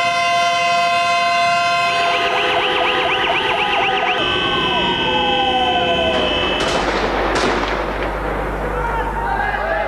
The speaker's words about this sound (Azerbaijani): Bakı buxtasında gəmilər, nəqliyyat vasitələri, metro və yerüstü qatarlar fit verib.